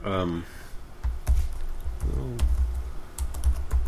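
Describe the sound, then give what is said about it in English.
A laptop touchpad is scrolled and clicked, giving a run of light, irregular taps and clicks. Brief bits of voice are heard alongside. “This is the sound of scrolling a text pad.”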